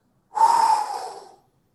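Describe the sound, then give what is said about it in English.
A person inhaling: one quick, sharp breath in with a sudden breathy onset, fairly loud and alone, tapering off within about a second. “That's an inhale.”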